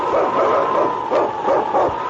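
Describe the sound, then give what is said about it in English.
A lead sled dog in the far north barks and yelps in a rapid series of excited, rhythmic calls over a dense, noisy background, loud and continuous throughout. “King, swiftest and strongest lead dog of the North Country”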